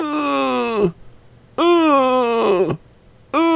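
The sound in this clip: A voice imitates a cat snoring with drawn-out, groaning tones that sink in pitch. Two long groans are separated by short silences, and a third begins at the end.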